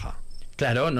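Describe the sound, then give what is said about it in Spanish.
Cricket chirping at night, heard from bed in a city: a faint, thin, high chirp sits in the background while people begin talking over it. “A mí me encanta, oír, o sea, estar en la cama y oír el grillo de fondo no me molesta para nada, es más,”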